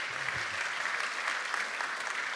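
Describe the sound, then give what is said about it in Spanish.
A church audience applauds the children: steady, dense clapping from many hands that holds at an even level throughout, with no voices standing out. “Denles un aplauso a los niños.”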